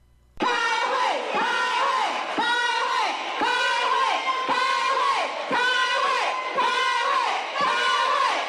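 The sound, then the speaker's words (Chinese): Legislators shout and protest during a chaotic Taiwan legislature session over a services trade agreement, with opposition members occupying the podium. Loud, sustained crowd yelling surges in repeated rhythmic bursts about a second apart, like massed chanting. “朝野两党围绕服贸协议的审议还没有开始，就围绕程序问题相互呛声，高声叫喊，一片混乱。民进党立委占领主席台，国民党立委大声抗议。”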